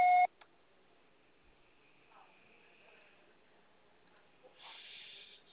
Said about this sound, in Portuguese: Recado, você só será tarifado após o sinal. Grave seu recado.